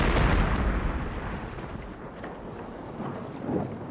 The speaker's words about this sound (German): Auch wenn die Ladung nicht am Oberdeck explodiert ist, wird sie einiges zerstört haben.